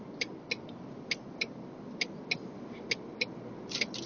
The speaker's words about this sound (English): Blinkers.